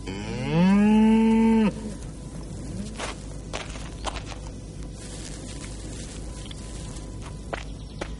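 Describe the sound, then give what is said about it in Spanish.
A single long, loud moo from a bull grazing behind wooden fencing, holding steady for about a second, followed by quieter rustling and a few scattered clicks or soft steps. “Entre las tablas ve toros pastando.”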